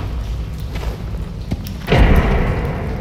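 A heavy door slams shut in a mine corridor: after a stretch of quieter low rumbling and faint knocks, a single deep, forceful thud hits, followed by a lingering low boom.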